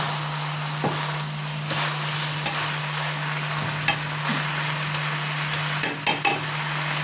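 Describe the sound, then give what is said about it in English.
Ingredients are stirred and sautéed together in a pan, with a few light scrapes and clicks over a soft, steady sizzle and a constant low hum. “Yes, I mix it all in. That's good. And saute it up. Mix it up together.”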